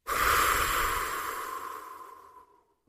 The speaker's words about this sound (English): Let's take a deep breath. Let it out.